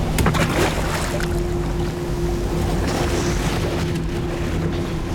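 Rushing sea and boat noise as lifeboats go into the water from a torn, sinking ship, a steady broad wash of water with a low constant hum beneath and no voices.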